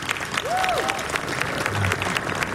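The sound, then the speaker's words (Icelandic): An audience at a summer jazz concert in Iceland applauds with steady, dense clapping. A brief voice and a faint low tone sound under it. “Já, klöppum fyrir því.”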